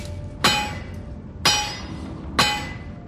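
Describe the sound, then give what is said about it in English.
A blacksmith's hammer strikes a piece of red-hot steel three times, evenly spaced. Each sharp metallic blow is followed by a bright ringing tone that fades before the next strike. “At the blacksmith's, Will is hammering a piece of red-hot steel.”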